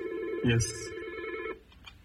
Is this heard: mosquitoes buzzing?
no